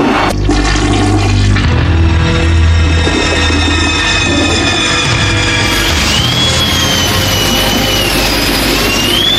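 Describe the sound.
A toilet flush sound effect gives off a loud, continuous rush of swirling water that lasts the whole stretch without pause, with a hissing, whistling tone rising out of the torrent near the end.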